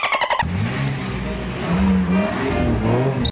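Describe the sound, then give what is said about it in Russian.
Engine of a red BMW sports car driven inside a shopping mall, a loud, steady motor drone that swells briefly in revs, following a short harmonic burst at the start. “Он за рулем BMW разъезжает внутри одного из молов столичного региона.”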